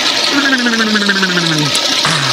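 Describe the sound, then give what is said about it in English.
Toilet flushing: a loud rush of water with a gurgling tone that slides steadily lower, breaks off, then briefly resumes, with no voices. “One will stick your head in the toilet and flush it.”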